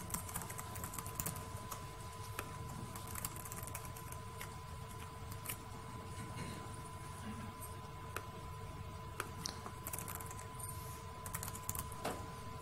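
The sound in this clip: Computer keyboard typing as basic details are entered while creating a single-node Jenkins server: many quick, irregular key clicks over a steady low hum.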